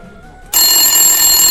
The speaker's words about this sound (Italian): mi squilla un attimo il telefono, chi è che potrebbe essere, non lo so, vediamo. Pronto? Oh. Ah ok, sta squillando.